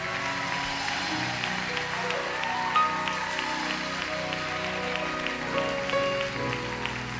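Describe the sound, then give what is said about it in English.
Congregation clapping steadily at a revival meeting in West Virginia, a dense, even patter of many hands blended with sustained music underneath. “Come as close as you can. Keep clapping. This is something to be celebrated.”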